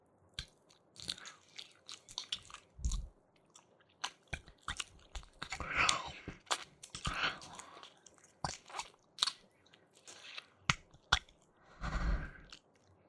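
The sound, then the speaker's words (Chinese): Wet tongue licking and mouth sounds in an ASMR ear-licking roleplay: many quiet, irregular wet clicks, smacks and slurps in uneven bursts, with no speech. “用舌尖舔主人的耳朵里面就可以了吗？主人就会舒服了吗？”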